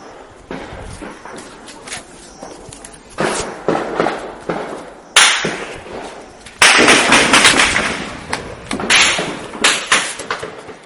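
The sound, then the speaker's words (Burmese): Weapons fire at night over Mrauk-U town in Rakhine State: irregular, sharp, cracking reports recur throughout, some in rapid clusters and some louder than others. “ညပိုင်း9နာရီခွဲကျော်10နာရီလောက်မှာမြောက်ဦးမြို့ပေါ်ကနေကြားခဲ့ရတဲ့လက်နက်ပစ်ခတ်တံတွေဖြစ်ပါတယ်။”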